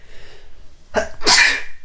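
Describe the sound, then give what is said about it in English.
A single loud human sneeze: a short sharp lead-in followed by an explosive, breathy burst that trails off, heard alone with no talk. “I've never sneezed on the podcast before.”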